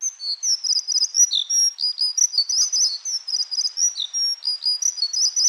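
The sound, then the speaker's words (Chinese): Small birds sing in a garden, a steady stream of high, bright chirps and quick trills that overlap without a break, clear and with no voices. “有一日，巨人突然间又听见雀仔嘅歌声”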